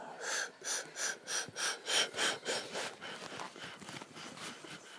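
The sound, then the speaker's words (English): Rhythmic breathing in and out through the nostrils, made of many quick, even, airy puffs in a steady pulse that loosen and fade slightly toward the end. “Breathe in deeply through the nostrils, hold for a moment, and then as you breathe out, empty your lungs of air.”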